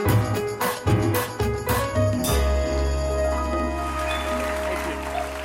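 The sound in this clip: Studio audience applause greeting a returning guest on a late-night talk show, blended with loud band music; strong rhythmic hits open the passage before sustained chords ring on under steady clapping.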